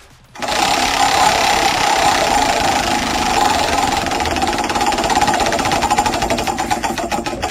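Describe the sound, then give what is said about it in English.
Rapid mechanical ticking of a prize wheel numbered one to five being spun in a game. A loud, steady, continuous clatter starts abruptly and runs throughout, with the individual ticks becoming more distinct toward the end. “The liar is going to spin the wheel.”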